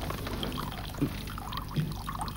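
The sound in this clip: Water being poured for someone in an office, a faint steady trickle under constant low background noise, with no clear voices.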